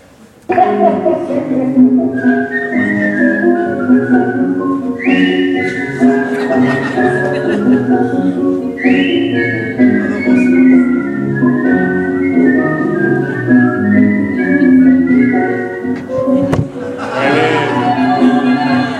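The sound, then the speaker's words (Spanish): Two people whistle a tango melody in counterpoint. One carries the tune while a second whistle weaves a separate line around it, in sustained, continuous tones that run steadily throughout. “lo silban y además el otro le hace el contrapunto con un segundo silbido”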